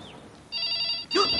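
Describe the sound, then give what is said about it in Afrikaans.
A telephone bell rings in two short, bright, high-pitched bursts separated by a brief gap. “Ek wonder wie kan dit wees. Wag, laat ek antwoord. Moenie antwoord nie, Poen. Huh? Moenie telefoon lui, Toekie. En as hy lui, dan moet ek antwoord.”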